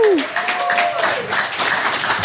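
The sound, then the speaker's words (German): An audience applauds a ragtime band with dense, continuous clapping that fills the whole stretch at an even level. A voice sounds briefly at the start. “Bitte einen herzlichen Applaus nochmal”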